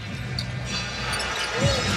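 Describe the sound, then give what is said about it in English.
A basketball is dribbled on the court during an NBA game between the Warriors and Spurs. Low bounces sit under a steady wash of arena crowd noise. “Dejounte Murray dribbles in, throws out.”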